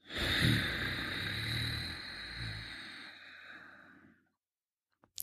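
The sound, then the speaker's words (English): A slow breath drawn through the nose with the back of the throat gently contracted. It makes a steady rushing, breathy hiss for about four seconds and then fades out, followed by a couple of faint clicks. “So we're going to inhale through the nose while gently contracting the back of our throat. And exhale slowly through the nose while keeping that throat contracted.”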